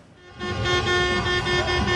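Car horns blaring in gridlocked Diyarbakır street traffic as fans celebrate their football club's promotion: a sustained, buzzy horn tone swells in within the first moment and holds loudly over a rumbling bed of engines.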